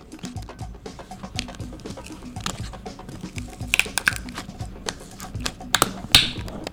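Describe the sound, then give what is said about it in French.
A sealed, airtight cap pops off a Sunripe Fruit Joe juice bottle: light clicks and handling rattles lead to one sharp, loud snap near the end. “Et là, ça l'a désnappé d'un coup sec, parce que d'habitude, les bouteilles de lait, par exemple, tu vas enlever le bouchon, et après ça, il va y avoir un petit truc à enlever comme une canne de conserve. Là, c'était le bouchon qui était l'hermétique”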